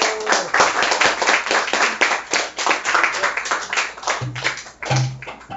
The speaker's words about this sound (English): Give him a warm round of applause.